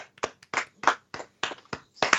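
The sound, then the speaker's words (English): Hands clap in a sparse, uneven series of sharp bursts with short gaps between them, fairly quiet overall, like a small scattered round of applause. “That is a round of applause.”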